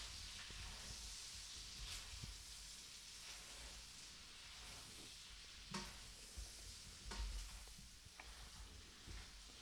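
Bacon fries in a pan, giving a steady, soft sizzling hiss with scattered small pops and crackles throughout, and no talking.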